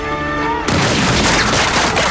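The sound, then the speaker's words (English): A rifle volley in a film battle, infantrymen firing through wooden palisades at samurai. After a held musical note, the volley breaks in as one sudden loud blast, followed by a sustained noisy crash. “Shots rip through the palisades and hit several samurai.”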